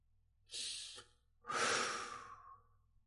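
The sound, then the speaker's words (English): A big deep breath: a short, airy inhale, a brief pause, then a longer and louder exhale with a sighing quality, alone without any talk. “that's a big deep breath, right?”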